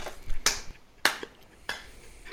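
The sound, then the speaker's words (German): A single person claps slowly and sparsely, four sharp, isolated claps separated by short pauses, crisp and fairly quiet with nothing else around them. “Ich applaudiere ein bisschen.”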